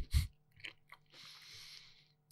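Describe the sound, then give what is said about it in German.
Biscuits being chewed and crunched: one sharp, loud crunch at the start, then softer, scattered bites and chewing sounds with a brief hiss, all faint and without talk. “Ich esse übrigens gerade nebenbei Kekse.”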